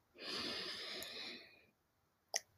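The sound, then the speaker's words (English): One deep breath drawn in, a long breathy rush of air lasting over a second, followed by a pause and a single brief faint click. “Let's take a deep breath right now. I promise you, at the end of this deep breath, you're going to feel a sense of release, okay? So breathe in.”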